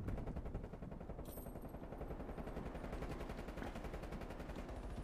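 Rapid, sustained gunfire from a video game as players shoot through a wall, a dense unbroken stream of loud shots that keeps going for the whole stretch.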